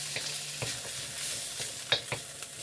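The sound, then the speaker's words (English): Pork stir-frying in a flat-bottom wok gives a quiet, steady sizzle with a few faint stirring scrapes through it. “it can be difficult to get really good results in a flat bottom wok, because it's harder to sort of control the temperature. And I'm just gonna cook this until the pork's just done.”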